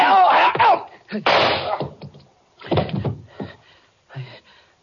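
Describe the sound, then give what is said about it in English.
A gunshot cracks out during a struggle in a radio drama, one sharp, heavy burst right after a shouted voice, with brief fragments of voices following in the narrow, old-fashioned sound. “He's dead. I had to shoot him. I had to.”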